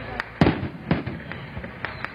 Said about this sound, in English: With fireworks and Chinese dancing dragons, Panama's President Juan Carlos Varela